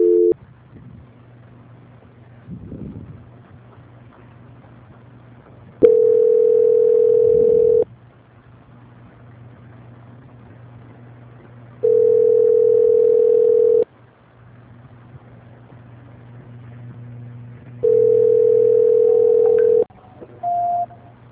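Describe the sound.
A telephone line tone plays while a call is transferred: three steady, mid-pitched tones of about two seconds each, separated by quiet gaps of roughly four seconds, then a short higher beep at the end.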